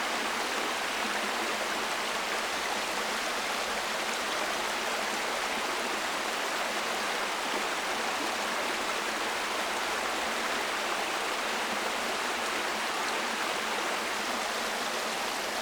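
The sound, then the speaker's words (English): Clear water flowing steadily in a forest stream among ferns, a continuous broad rushing hiss that holds even throughout with no pauses or voices. “A gorgeous sound of clear water that keeps us alive. It runs through our bodies. It's just beautiful.”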